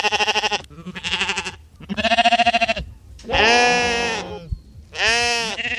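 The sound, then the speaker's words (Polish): Sheep bleating as they graze the grass beside a reservoir and an old fort, five drawn-out, wavering bleats separated by short pauses, loud and with no voices over them. “Na Zakrzówku i w forcie Bodzów możemy spotkać owieczki, które słyszymy też tutaj.”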